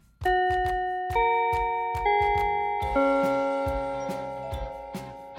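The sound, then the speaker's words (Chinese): A school bell marks the end of class with a melodic run of bright, struck chime tones, each note ringing on and overlapping the next, loud and steady with no voices. “杨老师刚说完，下课铃就响了。”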